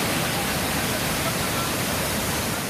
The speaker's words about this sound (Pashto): د قدرتي اوبو د ابشار د خیبر پختونخوا درګي بازار نه په 100 کیلومتره فاصله پروت دی